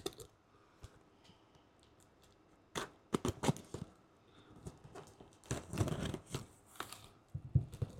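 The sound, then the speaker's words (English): Package opened with a Freedom Blade box cutter: a few scattered clicks give way to bursts of scraping, slicing and tearing of packaging, busiest in the middle and near the end, at a fairly faint level. “Got the Freedom Blade. Nope. There I go cutting toward me again.”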